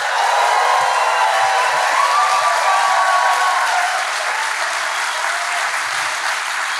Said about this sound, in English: Please put your hands together and give a very, very warm welcome for our first guest, Mr. Ricky Gervais.